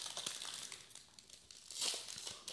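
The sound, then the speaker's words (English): Faint crinkling of a Battle for Zendikar trading card booster pack being torn open, with soft, uneven crackles of wrapper foil and a brief, brighter burst of crinkling near the end. “I guess we can do another pack opening.”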